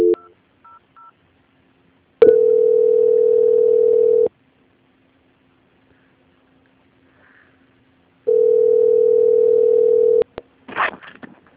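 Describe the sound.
Telephone tones on a bank's line while a call is transferred to a quality-control department: a few quick dialing beeps, then two long steady ringing tones separated by a stretch of silence, ending in a brief burst of noise.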